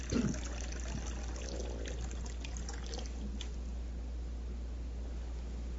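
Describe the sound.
Liquid pouring from a teapot held by a robot arm into a cup, a faint steady trickle that continues throughout after a brief louder splash at the start.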